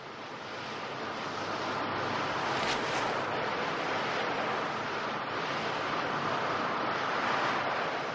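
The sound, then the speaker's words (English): Wind blows through trees in a steady, broad rushing hiss that swells gently and holds at an even, moderate level throughout, with no voices. “a reference to Blow Up, as the sound he's specifically here to record is wind blowing through the trees”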